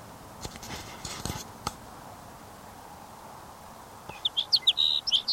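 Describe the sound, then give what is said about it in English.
Song of a sage sparrow, a quick burst of high, bright chirping notes arriving near the end, preceded by a few faint clicks over a quiet background. “sage sparrow number 8.”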